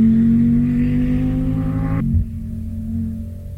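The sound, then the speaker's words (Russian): A car engine drones as the vehicle accelerates to overtake, holding a steady, even pitch before an abrupt change partway through leaves a lower, duller hum. “Далила, лихо посылая автомобиль на обгон”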